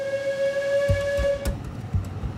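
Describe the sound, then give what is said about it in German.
A diesel locomotive hauling a train uphill on the Alishan mountain railway sounds a steady, tonal horn for about a second and a half. A few dull, spaced thumps follow. “Eine Diesellok ist nun vorne und zieht den Zug auf dem darüberliegenden Gleis bergauf.”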